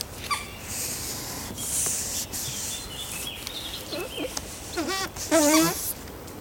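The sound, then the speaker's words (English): Big, wide velvety leaves rubbed together on a lowland heath, giving a steady scratchy rustle with a few brief, squeaky tonal chirps near the end. “Big wide velvety leaves, which squeak when you rub them.”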